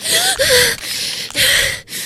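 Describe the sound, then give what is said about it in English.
A voice performs the gasps of a 14-year-old girl: about four quick, harsh, partly voiced breaths in rapid succession. “in true Spider-Parker fashion, and before I hit the ground, you see a gasping 14-year-old girl.”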